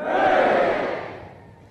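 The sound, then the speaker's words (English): Crowd cheering 'Hooray' for the Queen at a ceremony on the Isle of Man, one loud unified shout that swells quickly and then fades away. “to give 3 cheers to Her Majesty the Queen. Hip hip! Hooray!”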